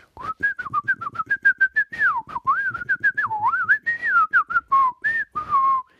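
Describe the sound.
A person whistles in imitation of a bird, a long warbling run of rapid chirpy notes that slide up and down in pitch for about six seconds, with no talk over it.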